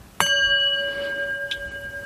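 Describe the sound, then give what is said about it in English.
Singing bowl struck once to open a meditation session, giving a clean metallic strike followed by a long, steady ring of pure sustained overtones. A softer second touch briefly refreshes the tone partway through, and the ringing holds evenly to the end. “we're going to use a singing bowl to mark the beginning and the end. It sounds like this.”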